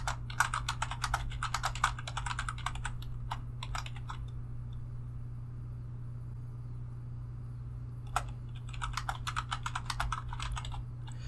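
Typing on a computer keyboard comes in two quick bursts of many clattering key presses, with a quiet pause between them. A low, steady hum runs underneath throughout.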